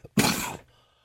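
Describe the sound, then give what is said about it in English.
A single short, harsh cough from someone who has had a cough all week, heard alone as one sudden burst that quickly fades to quiet. “Excuse me, sorry, I had a bit of a cough there because I'm dying with a cough all this week.”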